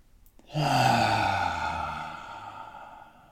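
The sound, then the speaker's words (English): A single deep breath that swells into a long, audible sighing exhale, loud at first and slowly fading away. “Please join me in a deep breath. Letting it out. Deep breath in.”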